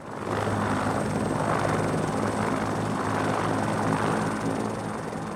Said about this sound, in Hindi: कर्मचारियों को राज्य में टॉरेस स्ट्रेट सहित बाहरी द्वीपों पर रोगियों की मदद और बचाव के लिए हेलीकॉप्टर उड़ाने के लिए प्रशिक्षित किया जाता है।